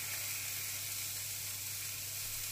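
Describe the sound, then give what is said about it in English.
Chicken fries in a pan with a constant, bright sizzle, a steady crackling hiss that stays even and fairly quiet throughout, with no voices over it. “just frying chicken, by the way.”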